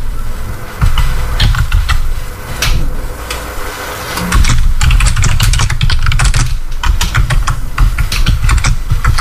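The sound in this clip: Typing on a computer keyboard produces rapid, irregular keystroke clicks. They come in dense bursts with a short lull, over a constant low background rumble, and no one speaks.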